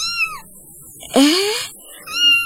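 A cat gives three meows: a short falling cry, a louder middle call that rises sharply in pitch, and a final steady, mid-pitched meow.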